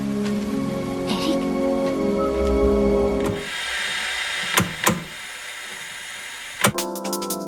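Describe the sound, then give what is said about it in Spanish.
Rain falls in a steady, dense hiss, broken by a few sharp knocks partway through. “Podía dejar de llover por una vez. No llueve eternamente.”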